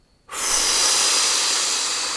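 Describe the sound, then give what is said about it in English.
A strong breath, taken as a big inhale and blown out during a guided body-awareness exercise, starts abruptly and holds as a steady, loud hiss of air through the rest of the moment. “Next breath, further into the body. Big inhale and blow.”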